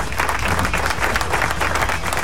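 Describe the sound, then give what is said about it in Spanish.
Studio audience applause at a show in Puerto Rico, a steady, even clatter of many hands clapping throughout. “Pero ahí el aplauso, ahí, venga el aplauso.”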